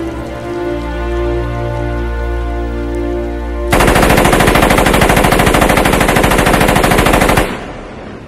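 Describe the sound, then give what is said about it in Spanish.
Machine-gun fire in a film scene: after several seconds of soft, sustained music, a loud, rapid, unbroken burst of gunfire lasts about four seconds and then stops abruptly, leaving a low tone. “únicamente vemos como Tom Hanks le barre a balazos”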